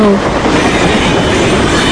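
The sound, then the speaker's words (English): Model trains running fast on a track produce a loud, continuous rattling rumble with a dense clickety-clack texture that holds steady throughout. “You make those trains go any faster, they won't stay on the track.”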